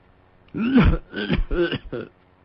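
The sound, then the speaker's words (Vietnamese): Hoarse, violent coughing from an old man, four rough, voiced bursts in quick succession that sound strained and throaty, like harsh throat clearing. “Nói tới đó đột nhiên ho sặc sụa.”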